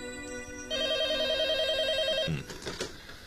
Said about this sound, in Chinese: 可就在这个时候，电话铃响